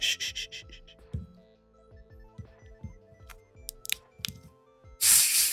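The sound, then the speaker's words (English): A can of 2023 limited edition artificial marshmallow flavored Pepsi is cracked open, giving a short, loud fizzing hiss at the very end after quieter clicks and rustles. “2023 limited edition. You're on artificial marshmallow flavored Pepsi. So here we go. Let's get a good crack in the mic. Let's see if you can hear this.”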